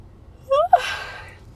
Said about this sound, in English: why am I yawning so much?